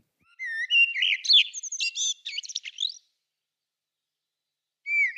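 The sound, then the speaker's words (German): A blackbird sings in the evening from rooftops, delivering one clear warbling phrase of fluted whistles and quick twittering chirps lasting a few seconds. After a silent pause, the start of a new phrase follows, with no other sounds. “abends von den Hausdächern die Amseln singen. Und ihr kennt den Gesang wahrscheinlich, aber ich habe ihn trotzdem mal mitgebracht”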